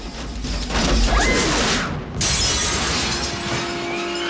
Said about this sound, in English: Both robots burst out of the glass roof and tumble through the night air.